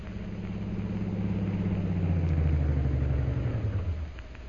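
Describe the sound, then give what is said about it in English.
Car engine rumbling as a car drives up and stops in front of a hotel in Shanghai; a deep, steady drone slowly drops in pitch as it slows, then settles to a quieter idle. “A few days later, Jungle Jim and Shanghai Lil drive up in front of Jim's hotel in Shanghai.”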